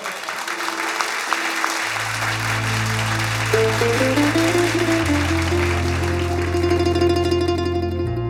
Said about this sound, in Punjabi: ਤਾਲੀਆਂ ਮਾਰ ਦਿਓ ਛੋਟੇ ਭਰਾ ਦੇ, ਨਰਿੰਦਰ ਬਾਠ, ਬਾਠਾ ਵਾਲਾ ਬਾਠ।